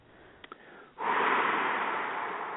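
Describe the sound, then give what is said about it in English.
A long, deep exhale blown out through the mouth during a guided breathing exercise, a loud breathy rush that begins after a quiet pause with two faint clicks and then slowly tapers. “Feel the light of the breath fill your body, so every cell is resonant with that breath, and then blow it out.”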